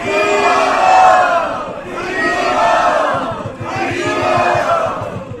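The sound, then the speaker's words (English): Crowd loudly chanting "Hari Bol" three times, each chant a swelling wave of massed voices that rises and falls, separated by brief dips. “please let us thank him by chanting very, very loudly, three Hari Bol.”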